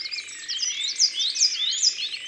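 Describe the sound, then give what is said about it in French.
A coal tit calling in thin, high-pitched chirps and tweets that repeat rapidly and overlap in a lively stream, sounding bright and fairly loud alone, with no voices. “C'est Tiwi, Tiwi. C'est la mésange noire.”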